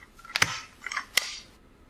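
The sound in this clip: A stapler snaps shut in a few quick, crisp mechanical clicks. The sharp metallic clacks come close together and stand alone.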